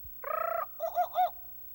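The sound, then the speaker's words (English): A jungle bird call: a buzzy trilled note followed by two warbling, cooing notes, clear and fairly faint against silence. “You will know it is time to turn the page when you hear the jungle bird call like this.”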